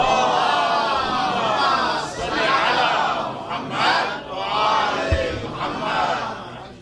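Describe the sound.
A crowd loudly chants salawat, blessings upon the Prophet, in a sustained roar of many voices that swells and dips in a few surges.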